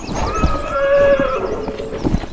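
A horse neighs with a high, wavering whinny while riders saddle up, and a few dull hoof thuds sound before and after the call.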